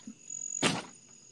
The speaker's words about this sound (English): Oh, I can hear your cricket. That is the sound of summer.